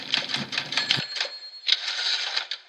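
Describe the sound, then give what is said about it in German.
Typewriter-like clacking for a listener-mail jingle: a rapid run of sharp keystroke clicks, a short pause, then a second burst of typing with a bright ringing tone. “Das war unser fantastisches Hörerpost-Jingle.”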